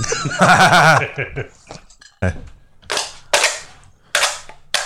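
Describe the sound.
Gunshots fired at a can: five sharp, loud cracks spaced unevenly about half a second to a second apart, coming after a voice at the start.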